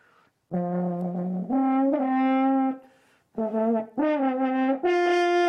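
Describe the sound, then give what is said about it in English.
An old antique French horn plays a short phrase of sustained, mellow notes separated by brief gaps, climbing higher toward the end. No voices are heard. “And that's the sound of the French horn.”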